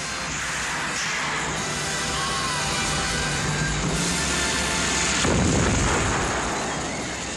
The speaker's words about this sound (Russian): Французские солдаты бегут по крыльцу догорающего деревенского дома. Им вслед стреляет наш пехотинец.